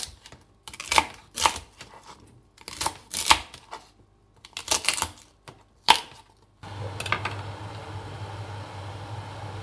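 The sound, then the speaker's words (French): A knife chops chard stalks into large chunks, giving several clusters of sharp, clicking cuts with short pauses between them. A steady low hiss and hum follow. “Ensuite, on coupe les côtes en gros tronçons”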